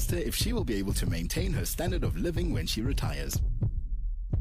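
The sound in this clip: A person's heartbeat throbs in a steady, low, pulsing rhythm beneath continuous talking, and the voice stops shortly before the end.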